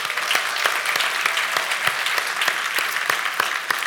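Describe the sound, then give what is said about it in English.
Audience applause fills a church service, a steady wash of clapping with a regular pulse of louder strikes running through it at an even pace. “So let's give them a round of applause”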